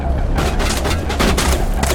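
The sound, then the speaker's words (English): Grenade explosions and gunfire in a video game firefight: rapid, loud bursts following one another over a heavy low rumble. “Let's see if we can throw some grenades.”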